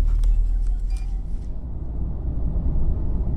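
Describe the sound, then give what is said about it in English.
Low, steady engine and road rumble inside a taxi driving from Frankfurt toward Darmstadt, a continuous droning hum with no distinct events. “I'm now in a taxi on my way to a place called Darmstadt, which is just about half an hour's drive outside Frankfurt.”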